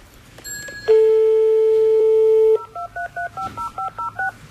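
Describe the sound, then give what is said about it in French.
A landline phone dialed to call a taxi: a steady dial tone, then a quick, even run of short touch-tone beeps as the number is keyed in. “On appelle un taxi?”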